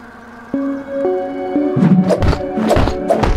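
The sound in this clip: Video game sound effects from Honey I Shrunk the Kids as a Tic Tac box is attacked and opened: a few stepped synthetic tones, then a series of heavy, booming thumps and bursts.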